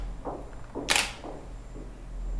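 A camera shutter fires once during a portrait photo shoot, giving a single quick, crisp click. It is faint against a low, steady background hum.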